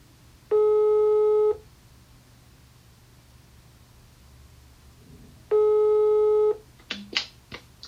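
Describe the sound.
Telephone ringback tone while calling: two steady, buzzy tones of about a second each, roughly five seconds apart over faint hiss, then a few clicks and knocks as the line picks up.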